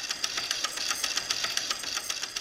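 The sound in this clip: Fast, steady mechanical clicking and chattering of a working replica of an early, simple electric motor at a university electrical engineering institute, a rapid even rhythm with a thin, hissy high edge.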